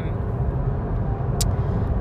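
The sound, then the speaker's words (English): Road noise from a car while driving, a steady, dense low rumble that fills the whole stretch without a break. “I'm driving once again. What's new? So if you hear any background noise, I apologize.”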